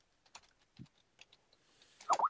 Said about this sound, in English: Okay, I'll just type it in here.